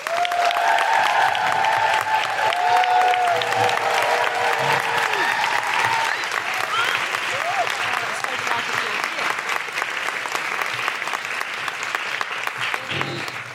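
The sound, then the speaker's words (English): Audience applause and cheering greet author Sheyi Akiwowo: steady, dense clapping with whoops rising over it early on, the clapping gradually thinning toward the end. “Please put your hands together and make incredible woohooing noises for the wonderful Sheyi Akiwowo.”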